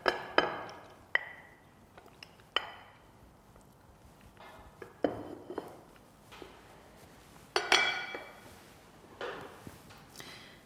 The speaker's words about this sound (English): I've lined my dish with butter and now I'm going to lay half the macaroni on the bottom.